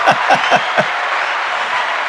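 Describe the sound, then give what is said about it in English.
Applause sound effect from the clap button on a Rodecaster Pro audio mixer: a dense, steady wash of clapping noise, with a few sharper hits in the first second. “There's just a button here on the Rodecaster Pro. You won't be able to hear it, but right here is the clap button. So you round of applause, and you just stopped it.”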